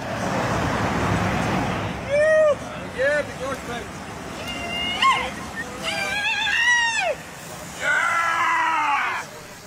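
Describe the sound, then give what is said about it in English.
A large pack of cyclists rides three and four abreast past a film crew on a flat road, with a steady rushing road noise. Shouts and cheers rise above it in several bursts. “From nose to tail, the pack took just more than 5 minutes to pass the film crew. Here's a sample.”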